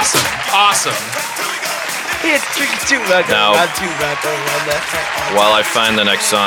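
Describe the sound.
A crowd applauds after a song performance, steady clapping running beneath a man talking throughout.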